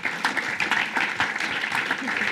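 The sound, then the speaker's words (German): Audience applause, many hands clapping in a dense, steady patter that runs evenly from start to finish. “Und auch für sie einen herzlichen Applaus.”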